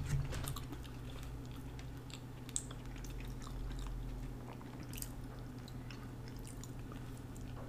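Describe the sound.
Quiet crunching as someone chews a crunchy scone: a scatter of faint crisp clicks and soft mouth sounds over a low steady hum, with no talk.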